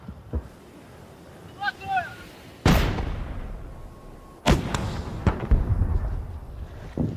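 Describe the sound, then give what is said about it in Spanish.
Artillery fire during an advance toward Kherson: two heavy booms, each with a long rumbling decay, stand out among a few fainter thumps. “Los orcos están disparando con todo su arsenal.”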